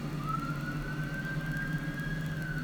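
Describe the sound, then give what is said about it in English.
A police car siren from a video of police chasing a bull sounds as one sustained wail that climbs slightly and holds steady, over a low engine rumble, with no talk. “The police don't even stop, and they just drive past the guy and chase after the bull.”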